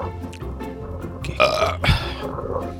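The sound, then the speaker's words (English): A burp let out over a cup during a round of drinking shots: a loud, rough, low belch that peaks in a couple of strong bursts over constant background noise. “Okay, burp on my cup.”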